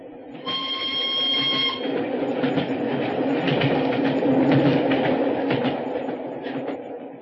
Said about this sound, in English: As we hid behind a pile of luggage at Canterbury, we saw the single carriage of the special go thundering past us.